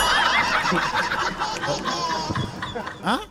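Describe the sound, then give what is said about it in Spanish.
A human voice imitates a lamb bleating with loud, quavering, nasal cries that run continuously for about three seconds and end in a short wavering burst. “¿Anda un cordero aquí en la radio? ¿De quién es el cordero?”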